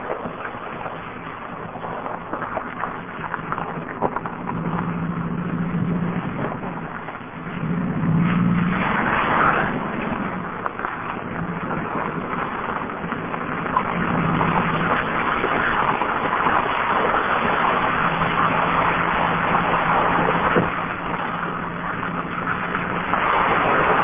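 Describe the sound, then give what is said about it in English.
A car drives through a stream on a road leading nowhere, its engine and rushing noise steady and continuous throughout, with a brief dip partway through. “Mark Bernay just drove through a stream down a road that goes nowhere”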